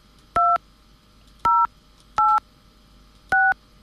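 A telephone number is dialed with DTMF keypad tones: four short, loud, clean two-pitch beeps at uneven intervals, separated by quiet gaps.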